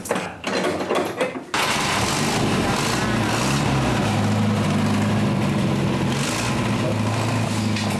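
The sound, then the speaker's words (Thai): Car engines started to show off the cars: a short burst of mechanical clatter gives way to a steady, humming idle drone that holds to the end. “พ่อบอกว่าขอถ่ายทำรถหน่อยได้ไหมไม่มีใครปฏิเสธเลยสักคนเดียวครับพร้อมกับสตาร์ทเครื่องโชว์แทบทุกคัน”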